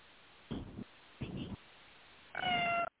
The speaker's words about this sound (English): That was my cat.